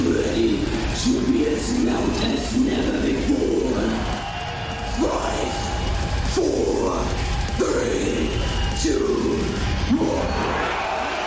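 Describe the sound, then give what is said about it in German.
A massive heavy metal crowd at Wacken Open Air roars a collective growl, loud enough to set a record. The dense, steady roar fills the whole stretch, with repeated surges rising out of the noise. “Hier haben die Fans so laut gebrüllt, dass sie eine Lautstärke von etwa 110 Dezibel erreicht haben.”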